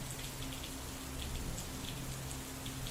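Steady rain falling in a heavy downpour, an even, soft, continuous patter and hiss that stays level throughout with no voices.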